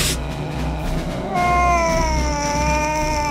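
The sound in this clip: A cat meows once in a long, drawn-out, tonal cry that sags slightly in pitch, rising out of steady background noise partway through.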